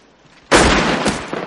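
A single loud rifle shot fired in a 1993 Holocaust film scene set in a prisoner camp: a sharp, sudden crack followed by a sustained rumbling decay that fades slowly, with no voices.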